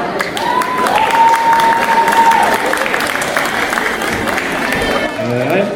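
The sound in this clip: An audience claps continuously in a dense, steady wash of applause at a live music gathering. The clapping holds at an even level throughout, and a voice is briefly heard near the end.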